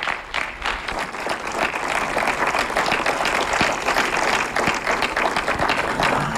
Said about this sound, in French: je crois qu'on peut une dernière fois vous applaudir parce que ça a été très fort